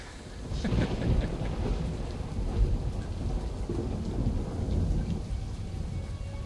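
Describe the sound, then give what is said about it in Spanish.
Thunderstorm with rain: a continuous, fairly loud rain hiss mixed with low rolling thunder rumbles that swell and fade over several seconds, with no distinct sharp claps. “Como ven, hay una tormenta de fondo.”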